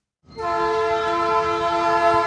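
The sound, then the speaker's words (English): A freight train rolls past a spot in Springfield, Illinois: a loud, steady rumbling drone with a sustained tonal ring that starts abruptly and holds unbroken for about two seconds. “A freight train rolls past what's now an unremarkable spot in Springfield”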